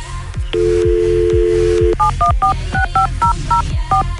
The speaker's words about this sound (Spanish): Vamos a marcarle al Javier.